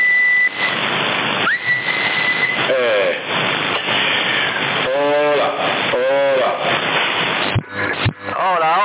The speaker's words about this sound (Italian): c'hai molto picchi positivi quando fischi